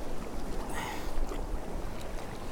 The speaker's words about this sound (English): And the wind's strengthening as well.